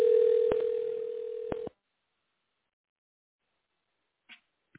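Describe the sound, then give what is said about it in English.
A telephone dial tone hums steadily for under two seconds, broken by a couple of clicks as the phone is dialed. It cuts off abruptly into silence, with two faint, brief blips near the end. “I'm currently dialing it now.”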